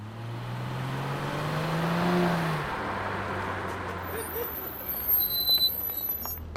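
A taxi arriving as a passenger gets in: a steady car engine rumble that swells and eases, with a few soft clunks near the end.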